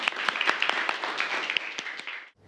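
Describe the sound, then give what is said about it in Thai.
Students applaud after a group presentation in a school class. The clapping is dense and lively, with many overlapping claps and sharp individual slaps, and it stops abruptly near the end. “ขอบคุณค่ะ ปรบมือ”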